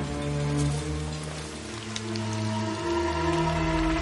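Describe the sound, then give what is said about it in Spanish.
Rain falling as a steady, dense hiss that stays even throughout, with sustained low humming tones running underneath. “Llueve.”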